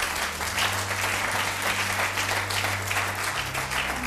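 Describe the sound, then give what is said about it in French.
A church audience applauds with steady, dense clapping that stays even throughout, over a low, constant hum. “Est-ce qu'on peut encore acclamer la présence du Saint-Esprit?”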